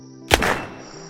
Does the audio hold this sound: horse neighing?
no

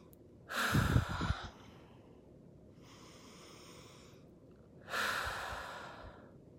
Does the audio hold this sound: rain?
no

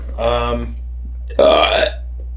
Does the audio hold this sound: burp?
yes

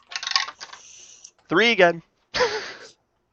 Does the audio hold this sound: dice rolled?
yes

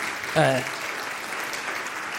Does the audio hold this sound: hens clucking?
no

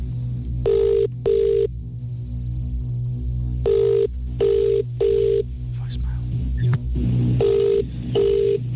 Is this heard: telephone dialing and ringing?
yes

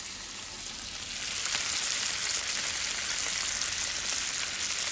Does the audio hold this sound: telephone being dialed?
no

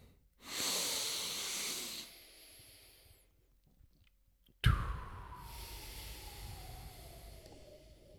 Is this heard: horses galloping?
no

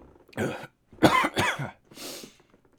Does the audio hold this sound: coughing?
yes

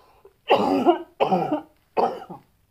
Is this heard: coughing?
yes

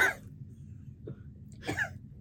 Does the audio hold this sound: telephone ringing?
no

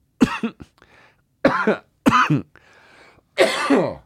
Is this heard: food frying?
no

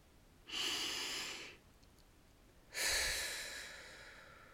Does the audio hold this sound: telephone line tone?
no

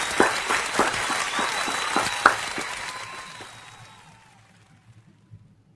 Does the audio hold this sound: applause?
yes

